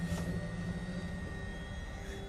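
An airplane engine drones in a steady, even hum with faint sustained tonal whine and no clear change in level across the whole stretch.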